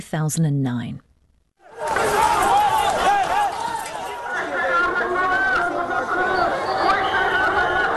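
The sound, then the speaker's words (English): Crowd noise from violent street clashes between Muslim Uyghurs and Han Chinese in Xinjiang, China, in July 2009: a dense, loud, continuous din of many voices shouting and chattering, preceded by a brief lone voice and a short silent gap. “Those are the sounds of violent clashes between Muslim Uyghurs and the majority ethnic group in China, the Han Chinese.”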